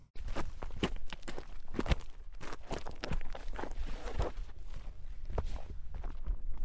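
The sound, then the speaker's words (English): Footsteps on a steep hiking trail up to a mountain fire lookout, with many crunching steps in a steady, repeating rhythm and moderately loud. “had to drive on some gravel roads southeast of Detroit Lake before a pretty steep hike takes you up to the lookout.”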